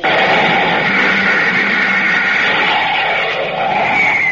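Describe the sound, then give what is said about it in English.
Roar of a rocket ship blasting off: a loud, dense, steady rushing rumble that holds at full strength throughout, wavering only slightly. “Stand by to raise ship. Blast off minus 5, 4, 3, 2, 1, 0.”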